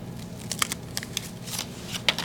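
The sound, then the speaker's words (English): Faint paper crinkling and small tearing ticks as a large paper footband is peeled off a Rocky Patel Conviction cigar, heard as a few scattered, soft crackles. “So let me go ahead and I'm going to take off this footband here. It's a pretty massive footband with Conviction on the bottom of it.”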